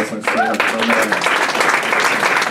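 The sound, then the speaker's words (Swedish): Applause from a church audience for its worship leaders during a service: dense, steady clapping that starts just after the opening moment and carries on without a break to the end. “Kan ni ge en varm applåd för”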